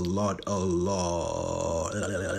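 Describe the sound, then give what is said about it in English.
A burp, long, low and throaty, with a wavering voiced pitch that rises briefly early on and then settles into a steady drawn-out rumble. “Oh, excuse me. That was a burp that I didn't see coming.”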